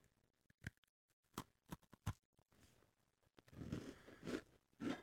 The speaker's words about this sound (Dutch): Eigenlijk moet ik niet proeven, want ik heb al heel de ochtend koekjes gegeten, maar ik zal het toch even proeven voor jullie thuis.